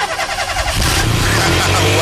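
A car engine starts: a brief cranking rattle gives way after under a second to a loud, rough running engine with a steady low drone, no voices.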